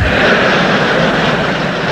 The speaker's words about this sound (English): I'm going to get on a plane. I love flying on planes.